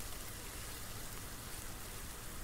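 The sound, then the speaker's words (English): Rain falling outside makes a steady, dense hiss that stays even in loudness throughout, with no voices. “It's really rainy out, so I was just thinking that we could chill.”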